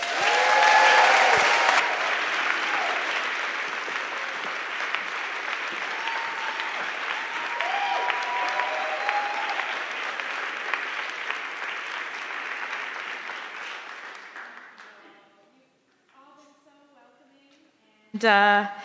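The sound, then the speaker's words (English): Rousing applause from a church audience welcomes a pastor: dense, sustained clapping holds steady for a long stretch, then thins and fades out before a voice briefly starts at the very end. “When we have outside people, we give them a rousing applause, right? This is an insider, so I want it to be even more special, all right?”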